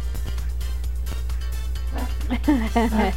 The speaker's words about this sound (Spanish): déjenle abro a mi perro porque está con esa tos